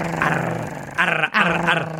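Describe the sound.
A person imitates a dog growling over food: a rough, throaty, low growl held in two long stretches with a brief break between them.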